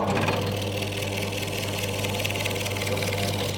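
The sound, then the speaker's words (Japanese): A katsuobushi shaving machine shaves Makurazaki dried bonito from Kyushu into fresh flakes, giving a steady, loud mechanical whirring over a constant low hum. The rhythmic drone stays even and continuous throughout. “こちらの鰹節の削りの機械で、毎日削りたての鰹節をご提供させていただいております。”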